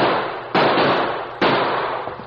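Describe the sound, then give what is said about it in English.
Gunshots ring out from an arroyo: a few sharp, loud reports, each followed by a long, slowly fading tail. No voices are heard. “That shot came from the arroyo over there.”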